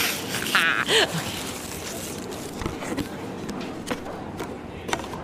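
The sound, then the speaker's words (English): Colourful paper wrapping is torn off a package with continuous crinkly rustling and tearing, broken by a few sharper rips and a brief vocal sound. “Oh, I thought it was brown paper. This is like fun and colorful. Okay. Uh, I almost don't want to rip it. No, I, I really do. I really do.”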